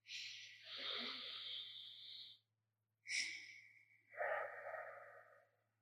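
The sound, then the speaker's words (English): A deep, conscious breath taken as a meditation example. Faint, breathy airflow: one long rush of air, a brief pause, then two more breathy pushes that trail off softly. “If you do one right now, just for example, a breath.”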